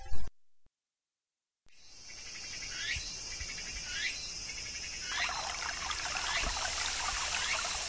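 River water flows at a spot used for washing laundry, a steady broad rushing murmur that swells slightly later on, with insects chirping over it. It begins after a brief sound and a moment of silence.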